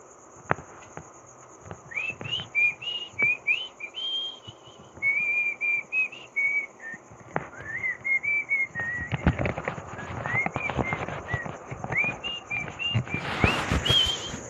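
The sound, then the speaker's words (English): Pet chicks peep and tweet at night in many short, high chirps that come in quick bursts throughout. Scratchy rustling and tapping grow busier toward the end. “Looks like my chicks are rousing themselves for a little late night tweet together. Tweet along.”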